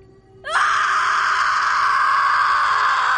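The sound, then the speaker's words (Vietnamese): A piercing, sustained scream filling a room, starting abruptly and holding one high, shrill tone loudly without a break to the end. “Một tiếng thét chói tai vang khắp căn phòng. Âm thanh này khiến cho tai của tôi đau nhức.”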